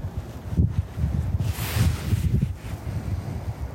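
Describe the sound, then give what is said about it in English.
Wind buffets a microphone outdoors on a chilly day, gusting from every direction as a jacket is used as a wind cover. It sounds like a steady low rumble with a brighter, hissing gust partway through. “I'm using my jacket as a wind cover. And the wind is still not being blocked. Because it's coming from every direction somehow.”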